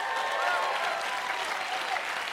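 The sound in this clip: Applause from a crowd welcoming a group of St. Paul people, steady and sustained through the whole clip.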